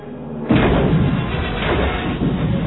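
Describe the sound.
Missiles explode against a starship's shield in a space battle: a sudden heavy blast bursts in, then a dense, rumbling roar of further impacts carries on loudly to the end.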